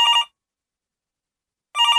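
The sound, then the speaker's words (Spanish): A telephone rings with an incoming call: two bright, buzzing electronic ring bursts separated by about a second and a half of silence. “¡Uy, qué bueno! ¡Una llamada!”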